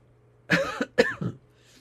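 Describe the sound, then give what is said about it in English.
Two short coughs from a tickle in the throat come in quick succession, the second ending in a throat clearing, over near silence. “Excuse me, Father, I have a tickle in my throat.”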